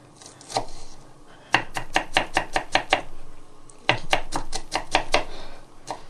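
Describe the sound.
Onions finely chopped with a knife on a board in a fine-dining kitchen: two quick runs of many crisp, rhythmic knife strikes separated by a short pause, loud and without talk.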